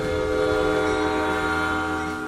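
A train departs after unloading in the desert, a loud, steady rail rumble under a sustained, horn-like tonal blast that holds throughout with no voices.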